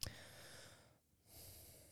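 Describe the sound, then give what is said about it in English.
A deep breath drawn in and let out, soft breathy rushing noise with a brief pause between the two halves, faint and without talk. “So let me take a deep breath.”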